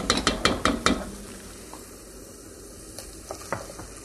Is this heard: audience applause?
no